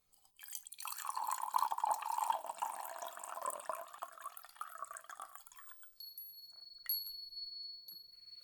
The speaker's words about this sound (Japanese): そうしたら、こちらのお茶碗へお湯を注いで、と。